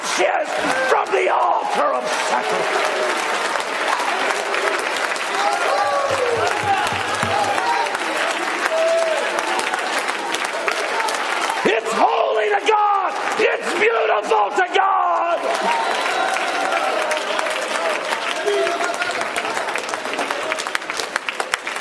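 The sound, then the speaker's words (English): A Pentecostal audience in Zambia claps hands and shouts in worship, with loud, continuous applause and raised voices yelling and whooping throughout. “Somebody claps their hands. Somebody dances before the Lord. Somebody shouts unto God with the voice of triumph.”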